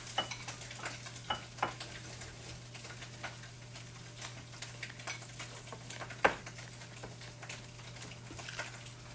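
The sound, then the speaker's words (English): Spam sizzles and crackles as it fries in a pan, with a steady bed of sizzle, scattered small pops and a low constant hum beneath, and no talking. “Okay, Spam is done. I have two more cooking.”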